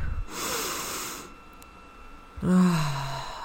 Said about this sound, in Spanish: Vamos a hacer entonces las respiraciones con las que siempre terminamos este podcast, y vamos a inhalar profundo